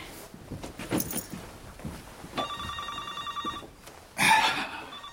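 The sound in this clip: A telephone rings in a doctor's office, with a steady, electronic-sounding ring sustained for about a second, then a brief louder burst, over faint movement sounds.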